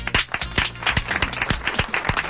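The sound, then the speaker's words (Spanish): Live applause from a small group, a scattering of sharp individual claps in an uneven rhythm, moderately loud and heard alone without talk. “Y esto es un aplauso en vivo.”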